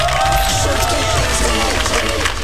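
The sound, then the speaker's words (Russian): Studio audience applause: dense, continuous clapping mixed with crowd noise, holding a steady, fairly loud level with no break. “Вашему вниманию подборные аплодисменты.”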